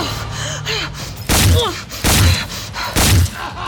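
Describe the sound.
Gunfire in a video game, heard as three loud, sharp bursts spaced about a second apart, each lasting a fraction of a second and rising well above a busy, steady game soundscape.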